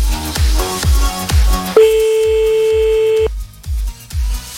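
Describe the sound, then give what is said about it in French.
A telephone line tone sounds while a call is being placed. A steady, buzzing tone holds for about a second and a half between loud, rhythmic thumping music beats. “Allez, c'est parti, on y va, on appelle, 2h-20 sur Fun.”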